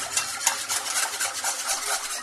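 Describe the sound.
Rapid, steady scraping strokes of a many-wired whisk stirring a flour mixture in a bowl, repeating as a continuous rhythmic swish with no talk.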